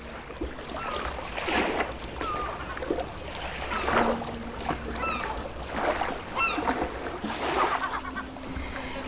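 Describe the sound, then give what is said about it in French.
Sea at sunrise after an overnight train ride: surf washing in broad, swelling rushes of noise that rise and fall in a slow rhythm, with wind in the background. “Et voilà, avec le soleil qui se lève sur la mer, et qu'est-ce que ça fait du bien de voir cette mer après un voyage en train de nuit sans couchette.”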